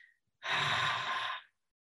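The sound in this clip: A single long exhale through the mouth, breathing out as much air from the lungs as possible: one breathy whoosh lasting about a second, heard alone in quiet.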